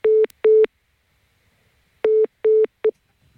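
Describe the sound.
A telephone busy tone sounds after a caller hangs up: loud, steady single-pitch beeps in short pairs, a gap, then another pair and a clipped final pulse.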